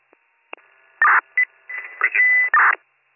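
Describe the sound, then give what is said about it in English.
Telephone keypad tones sound as a number is dialed: a few short, bright beeps at uneven intervals over a thin, narrow-band line with some faint crackle and murmur between them. “Dialing now.”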